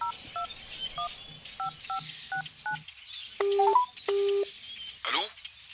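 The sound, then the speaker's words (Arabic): A telephone number being dialed on a keypad: a quick run of short touch-tone beeps at an uneven rhythm, followed by two longer, steady tones and a brief scratchy rustle. “كده خلوني اتصل بيهم.”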